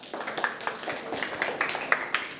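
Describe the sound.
Hand clapping during a picture quiz lesson, heard as a burst of sharp, irregular claps that stays fairly faint and continuous for the whole moment, with no voices.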